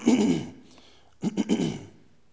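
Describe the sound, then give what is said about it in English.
A speaker clears their throat in two rough, low bursts. The second burst comes after a short pause and breaks into a few quick, jerky pulses. “get my throat cleared”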